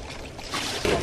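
Motorboat engine running on water, a dense, steady rushing drone mixed with wash and splashing that grows slightly louder midway through.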